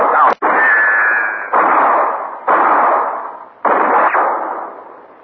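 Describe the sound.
Gunfire in a standoff: several loud blasts arrive one after another, each with a sharp attack and a long rumbling decay before the next shot.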